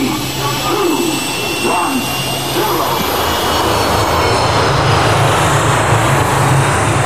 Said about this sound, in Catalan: cordeu-vos bé els cinturons i gaudiu del viatge per explorar el destí i desvelar alguns misteris màgics. Som a punt d'enlairar-nos cap a les Set Llunes Màgiques.